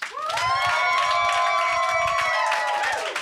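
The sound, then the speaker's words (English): Audience applause and cheering greet a comedian at a stand-up comedy night, a continuous roar of clapping with a loud, sustained whoop riding over it from start to finish. “That was too much applause.”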